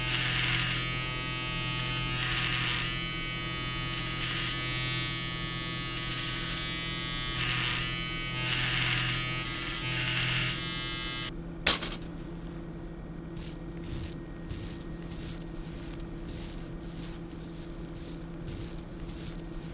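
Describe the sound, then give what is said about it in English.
An electric razor buzzes as it shaves the hair around a body's head before an autopsy incision. A dense, steady harmonic whine runs for about eleven seconds, then a sharp clack and a lighter, pulsing buzz follow. “I'm shaving the hair around his head in order to make a clean incision as we remove the skull cap.”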